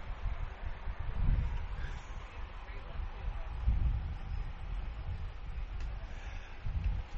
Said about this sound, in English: Got a nice industrial fan, and so if you hear the wind, that's me. That's the fan that is on me.